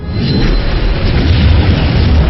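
A Meteor Rush attack explosion in a video game roars as a loud, continuous booming blast of dense, rumbling noise that stays steady throughout without a clear break.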